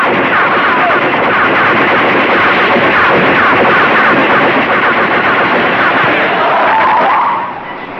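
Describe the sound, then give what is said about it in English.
Submachine gun fire with a hair trigger in a garage: a loud, dense, continuous rattling burst that holds steady for about seven seconds before cutting off abruptly. “Hey, you better let me have that submachine gun. It's pretty tricky. Hey, be careful with that thing. It's got a hair trigger.”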